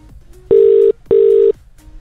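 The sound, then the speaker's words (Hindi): Telephone line tone during a call: two steady, mid-pitched buzzing bursts of about half a second each, separated by a short gap, loud against an otherwise quiet background. “इनका number तो saved है यहाँ पे। I don't think so, मैंने सही number dial किया है क्या?”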